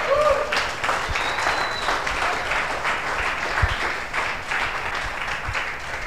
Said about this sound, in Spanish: ¿No crees que Dios merece un aplauso por esa buena noticia?